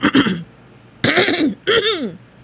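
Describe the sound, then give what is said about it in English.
A person clears their throat three times in quick succession, each a rough, rasping burst with a voiced growl, as if holding back the urge to cough. “See, it's clearing. See, my throat, like all that, like wants to cough.”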